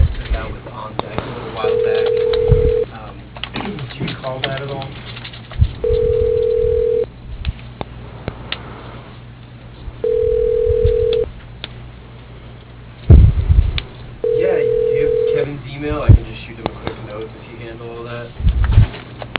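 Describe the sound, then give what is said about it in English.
A telephone ringback tone sounds while a call is being transferred: four steady mid-pitched ring bursts, each about a second long, spaced evenly a few seconds apart, with background voices and noise between them. “For Kathleen here, your call is being transferred.”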